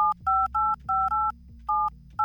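Touch-tone beeps of a telephone number being dialed: several short, loud two-tone keypad beeps in an uneven rapid sequence, with brief gaps between presses and no talk.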